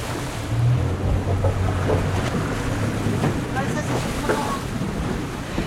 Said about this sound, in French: On est à quai, à bord du bateau.